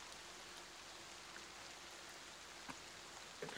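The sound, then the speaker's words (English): Light rain falls in the woods as a faint, steady hiss, with a few soft drop taps scattered through it. “it starts to very lightly rain in the woods.”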